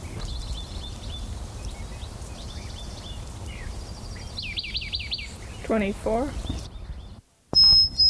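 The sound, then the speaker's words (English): A bird giving its call notes, a quick series of short, high, arching chirps in a burst, then a few lower notes, heard over a steady background hiss. “Call notes of the same bird.”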